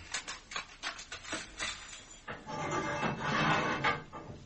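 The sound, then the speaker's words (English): A prison cell block door opens with a quick run of rattling mechanical clanks, then a longer rolling, grinding slide. No voices are heard. “open the cell block.”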